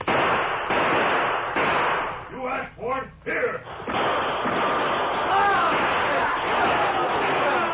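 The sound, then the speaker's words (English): Gunshots ring out in a Western gunfight as a masked man and Indians open fire on mounted rustlers from tall grass, a rapid series of loud, sharp bursts mixed with shouting voices. “The masked man and the Indians with him were firing before the rustlers could use their guns effectively.”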